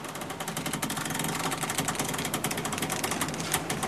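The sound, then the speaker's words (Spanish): Rapid rhythmic mechanical clatter from an old printing press in a Salamanca print shop of 1492, evenly spaced knocking pulses that run at a steady, fairly faint level. “Cruje la carabela y cruje también la imprenta.”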